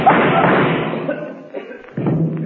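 A gunshot inside a vault sounds as a single dull, heavy thump near the end, following a loud, rushing stretch of noise.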